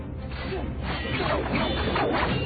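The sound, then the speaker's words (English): Sword-fight sound effects from a film, designed to resemble lightsabers, form a dense, continuous wash of clashing and swishing noise that stays loud throughout without clear pauses. “This is a really good sword fight. Yeah. And David did some great sound work here as well. He wanted to sound like lightsabers.”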